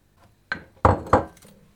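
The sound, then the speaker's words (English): Clinks of a container against a bowl as egg white is added to sieved caster sugar for peppermint drops. Three short knocks, the last two louder, with nothing else around them. “So I'm just adding the egg white into the sugar.”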